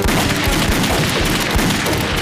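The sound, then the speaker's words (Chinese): Gunshots fired into the air form a loud, dense burst of rapid gunfire, a continuous crackling roar with no pause. “赵尚志来了，朝天放两枪，放两枪走，放枪！”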